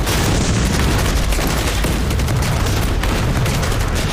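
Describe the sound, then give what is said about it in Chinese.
Machine-gun and artillery fire as a battle sound effect: a dense, continuous, loud roar of booms and rapid shots, with no talk. “机枪连、炮兵连重点加强一连防线火力，饱和打击。打。”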